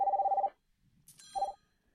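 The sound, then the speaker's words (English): A telephone rings in two bursts: first a half-second rapid, pulsing electronic trill, then after a quiet gap a second, shorter burst of the same tone, fairly faint and with no voices. “Phone ring again. Let's try that again.”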